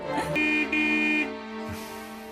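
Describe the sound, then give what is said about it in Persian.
A car horn honks twice in quick succession, a bright steady tone with a brief break between the two blasts, over a constant humming background. “جورج میگه هرچقدر دلت میخواد بوق بزن، میگرنش عود کرده. من فقط دو بار بوق زدم.”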